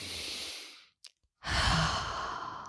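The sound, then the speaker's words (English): A deep breath taken during a calming exercise: a long, soft, airy breath, a brief silence, then a second full, rushing breath, with no talking. “Let's take a nice deep breath”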